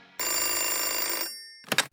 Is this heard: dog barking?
no

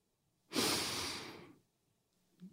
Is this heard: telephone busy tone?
no

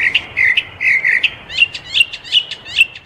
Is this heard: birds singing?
yes

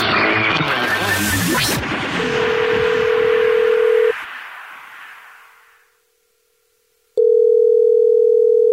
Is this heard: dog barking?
no

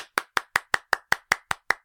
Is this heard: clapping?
yes

